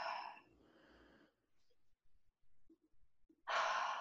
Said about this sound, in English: you're taking a good inhale in through your nose, out through your mouth.